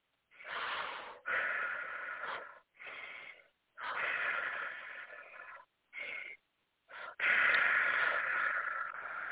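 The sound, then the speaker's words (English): Deep breaths drawn in and let out during a guided spiritual exercise: a series of loud, airy, rushing inhales and exhales separated by brief pauses, with no talk. “Three deep breaths.”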